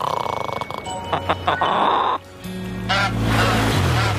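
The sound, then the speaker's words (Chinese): A swan honking by the shore: a few short, nasal honks in quick succession over the first half, followed by lower, more droning sounds. “这里有天鹅。”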